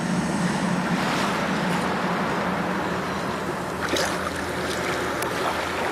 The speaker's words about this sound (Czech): Bendy, jsme na skále Trosečníku. Jenže přichází příliv a ona brzy zmizí v hlubinách.